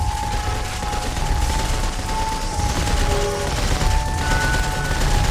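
Gunfire from a squad shooting at advancing mechanical monsters, heard as a steady, dense roar of rapid fire with no distinct single shots, plus a thin sustained tone running through it.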